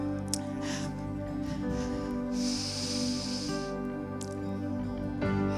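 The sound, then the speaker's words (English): A deep inhaled breath taken during guided worship prayer, heard as a soft airy hiss lasting about a second, with steady sustained musical tones beneath. “Just breathe him in. Take a deep breath.”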